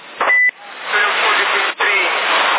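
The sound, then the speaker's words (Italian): An old truck's engine and wind noise from an open window come over a CB radio as a steady, thin rushing roar, broken by a short loud beep near the start and a brief dropout later. “Rumore dell'aria, del finestrino della macchina, c'hai tutto dietro, ce l'hai.”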